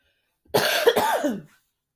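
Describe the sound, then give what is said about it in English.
A single harsh, strained cough from a person with a sore throat, lasting about a second with a raspy voiced quality, loud and alone against silence. “my throat is hurting me. That one actually hurt. That was the first time I actually coughed and it hurt.”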